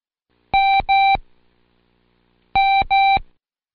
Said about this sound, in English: Now turn the card over and repeat the sound alike for the letter M each time the code is sounded.